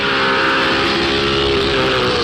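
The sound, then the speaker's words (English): Formula One Lotus racing car driving, its engine a loud, continuous roar at a steady pitch throughout, with no voices. “Driving a Formula One Lotus needs special training, but teaching people to drive needs special training too.”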